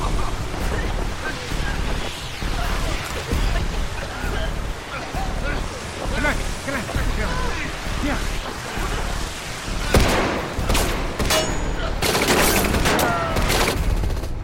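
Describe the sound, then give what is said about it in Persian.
Bursts of gunfire, several sharp cracks clustered toward the end, ring out over a steady rough background noise while people talk throughout. “صدای تیراندازی از اونجا میاد.”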